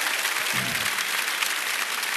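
Congregation applause rings out during a morning church service, a dense, steady clapping that holds at an even level for about two seconds with no talk over it.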